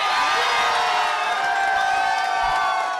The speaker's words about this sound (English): Shortly after noon, the news broke to crowds gathered in Portland.